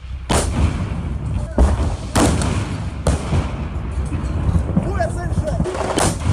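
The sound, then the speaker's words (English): Street fighting in Kharkiv, Ukraine, comes through as several heavy, sharp blasts of gunfire or artillery over a continuous dense, rumbling roar. “that is sounds of fighting on the streets of Kharkiv.”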